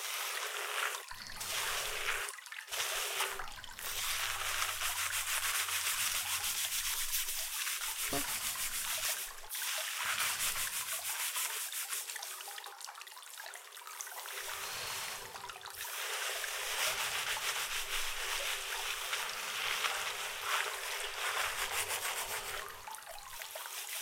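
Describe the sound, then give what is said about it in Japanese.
Hair being washed and lathered with shampoo while someone else scrubs the head: a steady, soft rubbing and scrubbing noise that runs throughout, broken by a few short pauses. “人に頭を洗ってもらうなんて想像よりも気持ちいい行為でございますよ”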